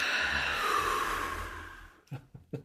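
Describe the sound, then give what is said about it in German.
A long, steady inhaled breath taken during a guided breathing exercise, soft and airy, lasting about two seconds and gently fading, followed by a few short, faint clicks. “Nicht einatmen. Einatmen.”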